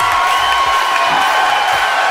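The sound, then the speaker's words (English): Studio audience applauding and cheering to welcome a guest, a dense, steady wash of clapping and crowd noise. “Everyone join your hands together and welcome Lady Light.”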